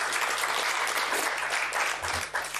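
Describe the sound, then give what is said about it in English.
Audience applause at a public event honoring a director general, a steady dense clatter of many hands clapping at an even level throughout, with no voices over it. “And we have to appreciate her for that. Please give a big round of”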